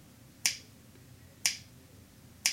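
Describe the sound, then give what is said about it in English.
Three crisp synthesized percussive snaps from a snap sample, evenly spaced about a second apart, each a sharp bright click that fades quickly over a faint low hum. “Let's see if I can make it. A snap sound. We made a snap.”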